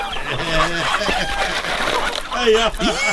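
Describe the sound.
Chickens clucking, with a rooster crowing among them: a busy run of overlapping calls whose pitch bends up and down, steady and fairly loud through the whole stretch.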